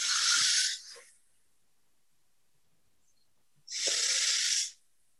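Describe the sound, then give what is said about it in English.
A group takes a deep breath together: two loud, breathy hissing bursts, each lasting about a second and separated by a few seconds of near silence, with no talking. “on the count of three, everybody will take a nice deep breath and enjoy the miracle of life together. 1, 2, 3.”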